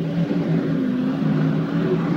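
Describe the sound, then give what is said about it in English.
Roaring engine of a chase vehicle tearing through huge desert sand dunes, a continuous low droning hum with steady harmonics that stays at an even level throughout. “Mike floors it and leads the chase, twisting and turning through the huge dunes in the desert.”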